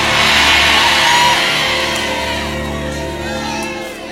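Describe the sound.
An audience shouts and whoops in response during a church sermon, a loud, dense crowd roar that holds for about a second and then slowly eases over the next few seconds.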